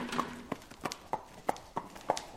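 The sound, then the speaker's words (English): Hooves of big brown mares and young foals being led from the fields into stalls on a horse farm in Adams County: a steady walking rhythm of distinct hoof clops, about seven, spaced evenly and fairly faint. “Workers here at Hanover Shoe Farms are leading big brown mares and young foals from the fields into stalls.”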